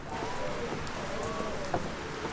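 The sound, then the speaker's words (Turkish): Rain falls outside in a steady, even hiss that runs unbroken through the whole clip at a moderate level, with no voices. “Dışarıda yağmur yağıyor.”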